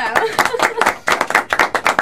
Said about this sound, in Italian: Facciamo un applausone a Daniele per il discorso quello sull'incentivazione dell'economia.